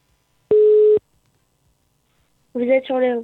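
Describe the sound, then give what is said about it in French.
A telephone tone sounds once during a call as a single steady, even beep, followed after a short silence by people talking. “Ça sonne. Va-t-elle décrocher ?”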